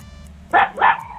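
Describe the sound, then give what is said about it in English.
A dog gives two short, sharp barks in quick succession, loud against a quiet low hum. “Not the dog. The dog's trying to answer.”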